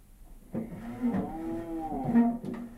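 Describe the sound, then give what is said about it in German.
A cow lows in one drawn-out, fairly low moo that holds steady for about two seconds, moderately loud, with faint thumps at its start and end. “Pass auf. Die Kuh bewegt sich.”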